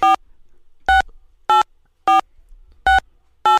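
Six telephone keypad tones enter a six-digit PIN on an automated call-in host line. The short, crisp dual-tone beeps sound alone, spaced roughly half a second apart, with quiet gaps between presses.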